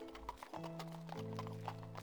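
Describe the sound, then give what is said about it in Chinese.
Hooves of a horse-drawn carriage clip-clopping steadily at nightfall as it slows toward a stop, with a horse whinnying and a sustained tonal drone underneath. “过了许久，马车才缓缓停下。”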